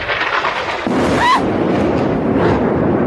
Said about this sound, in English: right behind her, the apartment building behind her, boom, gets bombed.